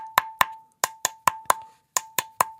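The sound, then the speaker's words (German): A bottle lid flicked with a fingernail as improvised percussion gives about ten hollow, pitched plops in an uneven rhythm. Each plop rings with the same mid tone and decays quickly. “Und den Deckel kann ich mit dem Fingernagel spielen oder mit dem”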